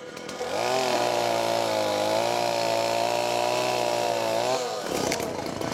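A saw cuts slowly through a huge tree branch, its loud, steady, buzzing whine holding an even pitch with slight dips for about four seconds before cutting out.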